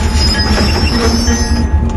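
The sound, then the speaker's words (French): A passenger train runs from Chihuahua toward the Pacific coast with a steady, dense rolling rumble, threaded with thin, high-pitched metallic squeals from the wheels that hold throughout. “c'est de prendre le train qui va de Chihuahua, la capitale de l'État, jusqu'à la côte du Pacifique.”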